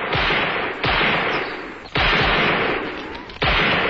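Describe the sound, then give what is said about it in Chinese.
Gunfire from a live-fire shooting drill by a guard unit at the foot of a mountain: loud, sharp bursts that strike a few times, each followed by a sustained roaring wash of noise, with no voices. “山脚下，中央警卫分队在进行实弹射击。”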